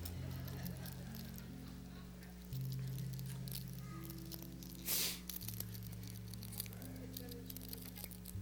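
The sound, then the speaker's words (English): Peeling cellophane off a communion cup: a short, crinkly tearing burst midway through, heard over steady, sustained musical tones. “And thank God he didn't have to peel back cellophane.”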